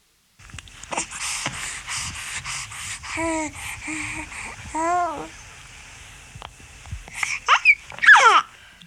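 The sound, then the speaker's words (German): A baby coos and babbles in short voiced bursts, with melodic rising and falling sounds, some breathy gaps between them, and a run of higher squealing babbles near the end. “Es klingt schön, wenn ein Baby seine ersten Gurrlaute hören lässt. Wenn dann das Brabbeln dazukommt, entstehen richtige Geschichten.”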